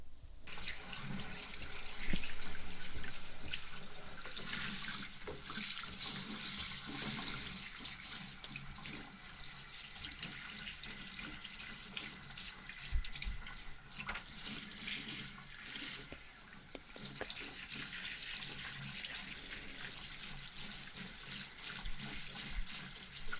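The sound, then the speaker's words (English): Tap water running steadily into a sink while someone's face is washed, a continuous, fairly quiet hiss of flowing water with small splashes and no talk. “I'll wash your face. Yeah, napkins didn't help.”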